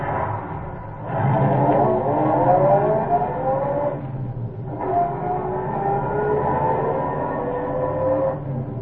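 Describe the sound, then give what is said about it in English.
A car engine with a carburetor that had to be cleared and a reluctant starter revs up on a desert road, its loud, rough drone climbing steadily in pitch, dipping briefly, then surging and climbing again. “And he took his few minutes and cleared the carburetor, stepped again on the reluctant starter,”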